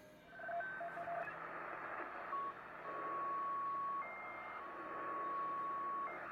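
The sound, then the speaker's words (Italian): An ICOM shortwave receiver is tuned across the 6 MHz band, landing back on a station it wrapped around to, with steady high whistling tones and brief beeps sounding over a constant hiss. “E qui siamo tornati alla stazione di prima, perché questo ricevitore ICOM fa il giro. Quando arriva alla fine dei 6 MHz ricomincia da zero, quindi da 6.000 kHz a 6.999 e ricomincia.”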